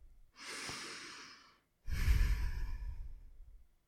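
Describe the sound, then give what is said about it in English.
Slow, deep human breathing: two long breaths separated by a brief pause, the second louder, fuller and sighing. No talk. “Let's breathe together.”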